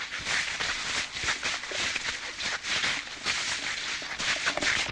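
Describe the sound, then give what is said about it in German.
Footsteps crunching through fallen leaves and gravel make a dense, steady rustle of many overlapping crackly steps that continues throughout. “Das ist das Laub. Das sind meine Füße. Das ist das Kies.”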